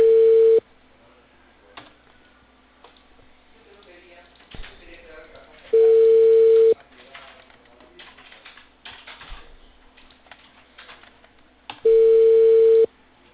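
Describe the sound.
Unanswered telephone call with three steady ringback tones, evenly spaced about six seconds apart. Between the tones come light keyboard tapping and faint background sounds.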